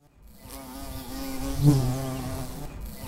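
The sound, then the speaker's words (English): Honeybees buzz at a hive in a tree, a steady, droning hum that swells slightly in the middle and carries on without voices. “Hey, look at the hive in the tree. Oh, honeybees, they are amazing.”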